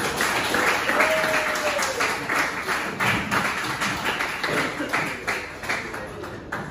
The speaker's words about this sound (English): All right. Give it up for Aaron.